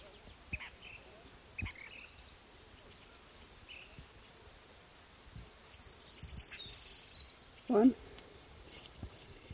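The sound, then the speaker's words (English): Orange-crowned warbler song, one bright high-pitched trill about a second long rising out of a quiet backdrop with faint insect buzz and scattered soft chirps. “And here's orange crown warbler number one.”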